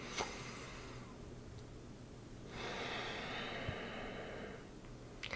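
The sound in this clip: A slow, deep breath, a soft breathy rush that swells partway through and holds steadily for a few seconds, heard alone without talk.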